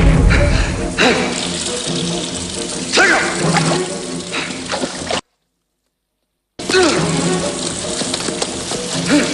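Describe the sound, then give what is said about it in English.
Water in a dank sewer tunnel, a steady watery wash with a few scattered drips and splashes, broken by a short stretch of silence partway through. “A dripping sewer tunnel.”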